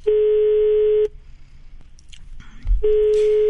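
A telephone call signal on a line to a psychological counseling service sounds as two steady, mid-pitched tones about a second long, with a quieter gap of faint handling noise between them.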